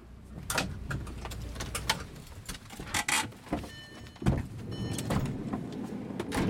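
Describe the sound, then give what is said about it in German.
A minibus pulls up outside a prison for young men, its engine rumbling under a few sharp knocks and brief whirring bursts, with moderate, uneven loudness throughout. “Vor der Justizvollzugsanstalt Ebrach, 30 Kilometer westlich von Bamberg, fährt ein Kleinbus vor.”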